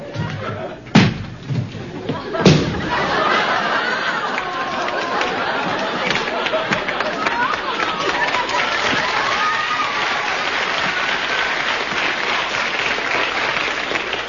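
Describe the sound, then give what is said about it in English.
Pounding on a door: two heavy, separate thuds land close together, then steady crowd applause and chatter take over and continue to the end. “Pound on the door!”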